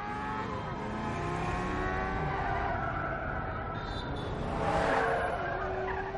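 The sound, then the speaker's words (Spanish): A sport motorcycle skids across a city roadway at night beside a building. It gives a prolonged, harsh scraping screech with a steady mechanical drone that swells louder near the end. “Junto al edificio una moto deportiva resbala por la calzada.”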